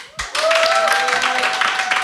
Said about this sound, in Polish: więc ja bym jednak poprosił dla pani Barbary spontaniczne brawa.